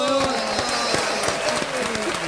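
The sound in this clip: Studio applause welcoming a guest, with rhythmic clapping running under excited shouting voices throughout.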